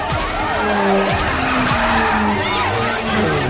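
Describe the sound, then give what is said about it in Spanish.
Tires squeal and skid during a frenzied car chase through the streets of Salamanca in a 2008 thriller film. Several loud, sliding squeals ride over a constant roar of engines and traffic. “se sigue desarrollando la frenética persecución por las calles de Salamanca. Los dos hacen con sus coches, evitando a los demás vehículos que invaden la calzada.”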